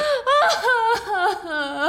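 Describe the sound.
A drunk woman cries with wavering, wailing sobs whose pitch slides up and down in long strained cries, and no words are spoken.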